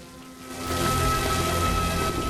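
Rain falls by a well and soaks a girl standing there. It is a dense, steady hiss that swells after the first half second and then holds at an even level.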